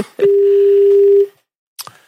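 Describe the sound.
A steady telephone dial tone at the start of a call: one unbroken, mid-pitched hum lasting about a second. It cuts off into silence, and a short faint noise follows.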